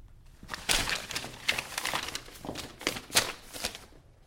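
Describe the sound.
A sheet of paper with written music is handed over and unfolded on a theatre stage, giving a few crisp, crackling rustles of modest loudness with no talk.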